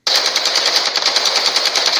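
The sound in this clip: Rapid machine gun fire from the Call of Duty video game rattles in one loud, unbroken burst, with dense even shots and no pauses or voices.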